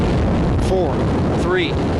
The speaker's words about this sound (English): And here we go. RS-25 engines lit.